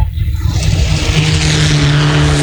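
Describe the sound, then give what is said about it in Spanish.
Loud, steady engine roar from a Mitsubishi rally car, with a droning low hum and broad gritty noise that holds throughout, heard alone. “El Mitsubishi es la máquina que trabajó muy bien derrapando el vehículo,”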